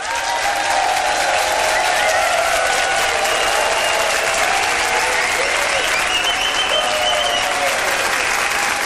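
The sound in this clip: A large studio audience at a comedians' panel-show recording gives loud, sustained applause. The dense clapping stays at a steady level for the whole stretch, with no clear speech over it.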